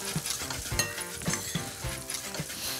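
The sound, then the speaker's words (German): Paprika powder, salt and pepper sizzle steadily as they roast in a pan, with a continuous crackling hiss broken by a few light clinks of a utensil against the pan. “Rösten ist auch immer lecker, wenn du Paprika so ein bisschen anröstest.”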